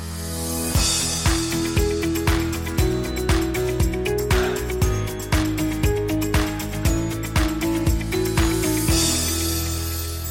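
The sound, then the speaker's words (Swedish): A short musical jingle opens a wine-tasting show, with a steady beat of punchy drum hits under bright, stepping melodic tones, playing alone for about ten seconds. “Vi börjar faktiskt med en sån här jingle.”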